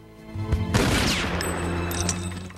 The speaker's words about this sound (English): Shoot it! The younger guy draws a pistol and aims at the lock.